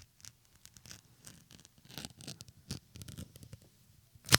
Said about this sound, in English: I am going to pop this bottle, but I'm going to start with the tear. Please Jake. Do. I'm going to try and do this gingerly.